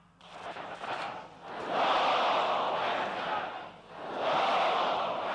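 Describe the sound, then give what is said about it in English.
An audience chants religious and political slogans in unison, its massed voices rising and falling in repeated loud swells. “The audience is chanting, Allahu Akbar, God is greater, Khamenei is the leader.”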